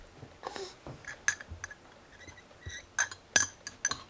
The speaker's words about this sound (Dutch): koffie roeren